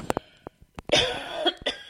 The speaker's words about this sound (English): Excuse me. I have a little bit of a cough this morning.